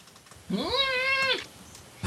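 A cat gives a single long meow that rises at the start, holds a steady pitch, then drops away. It is loud and clear over a faint background, with no talk.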